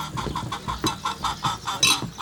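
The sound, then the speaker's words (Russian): Chickens cluck while pecking crumbs around a table on a hotel veranda. Many short, clipped clucks repeat in a steady, bobbing rhythm at moderate loudness, with one sharper, higher call near the end. “У стола, склевывая крошки, ходят куры.”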